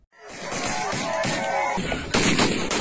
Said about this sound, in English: That's the sound of gunmen who massacred 60 people in an armed ambush.